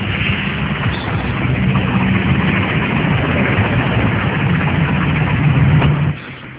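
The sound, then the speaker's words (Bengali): A large car's engine rumbles as it drives in through a house gate, a steady low drone with no voices that drops off abruptly near the end. “এমন সময় একদিন তারা দেখলো একটা বড় গাড়ি এসে বাড়ির গেট দিয়ে ঢুকছে।”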